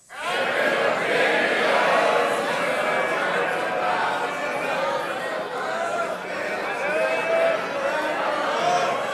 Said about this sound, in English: So let's hear it from the audience. Your interpretation of the second opinions theme.